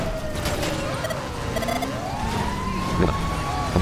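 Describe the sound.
A fire truck siren in a video game wails in a steady rising and falling tone over background game noise.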